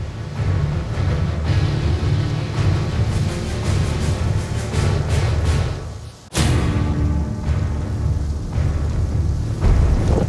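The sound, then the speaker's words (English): Strong wind blowing at about 40 miles an hour on a mountaintop, a loud, steady roaring rush with heavy low buffeting that briefly drops away near the middle before surging back. “It's blowing pretty good. It's really gonna limit how far I can shoot. When it's blowing 40 miles an hour like this, it'll start to push your bullet.”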